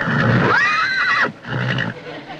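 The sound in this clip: A horse whinnies once, its high, harmonically rich call arching up and then sliding back down, set between quieter, lower snorting and rustling sounds at moderate loudness.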